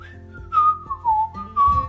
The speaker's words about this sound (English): It's kind of fun when you hike to whistle. Do you know how to whistle?